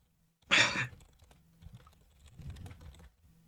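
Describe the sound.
Typing an AI prompt on a computer keyboard: a quick loud burst of key clatter opens, followed by softer, scattered keystrokes and taps in an otherwise quiet moment.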